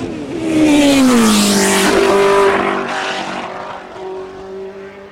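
A Formula 1 racing car engine easing to idle: a loud, buzzing roar whose pitch falls over the first two seconds, then settles into a steady, lower drone that softens slightly.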